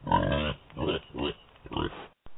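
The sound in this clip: Pig oinks and grunts as a man turns into a pig: four nasal, snorting bursts in an uneven rhythm, fairly loud and low.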